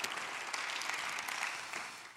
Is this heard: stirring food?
no

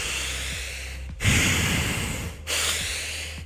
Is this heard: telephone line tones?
no

